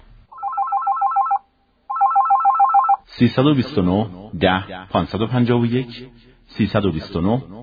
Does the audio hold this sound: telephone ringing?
yes